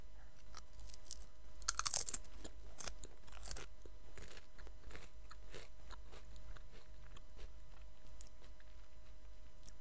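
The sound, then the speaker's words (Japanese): Sour-flavoured potato chips being eaten, giving many crisp, crackling crunches and bites. A cluster of sharper bites comes early, followed by steadier chewing that fades to softer munching, with no talk. “これは何味のポテチかというと酸っぱいやつです。酸っぱい味が好きです。いただきます。”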